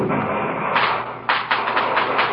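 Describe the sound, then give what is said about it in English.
Fireworks go off in a quick run of several muffled pops and bangs, starting partway through and continuing to the end over a steady background hiss. “What's that? The fireworks, the fireworks.”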